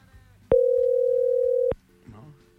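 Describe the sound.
A telephone ringing tone on a call that will not connect: one steady, loud, mid-pitched beep lasting just over a second, with faint voice sounds around it.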